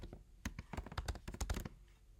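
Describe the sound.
Rapid typing on a computer keyboard during a Google search: many quick, uneven key clicks in a dense, irregular run with short pauses, moderately quiet throughout.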